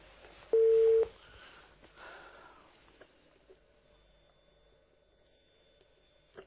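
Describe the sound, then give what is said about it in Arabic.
A telephone tone sounds after a caller's line is cut off: one loud, steady beep lasting about half a second, then a pause. A faint, continuous tone follows and runs to the end. “طيب ان شاء الله القطع اتصال الاخت مصراء”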